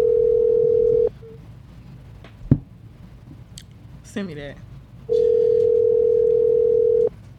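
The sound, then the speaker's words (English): Ringback tone of an outgoing telephone call: a steady single-pitched tone cuts off after about a second, then a quiet gap with faint clicks, then a second, roughly two-second burst of the same tone. “Let me call this one person. I want to see what he got to say about this brunch topic. Watch this shit.”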